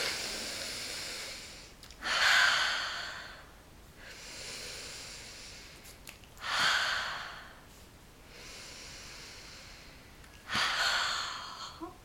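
Deep breaths drawn in and let out, three loud breathy rushes of air spaced evenly apart with softer airflow between them and no speech.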